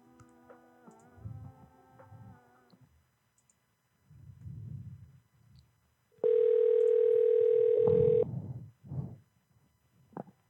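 Telephone ringback tone while a call to a pharmacy is transferred: one loud, steady, buzzy ring lasting about two seconds, preceded by quieter sustained tones and with soft, low noises between.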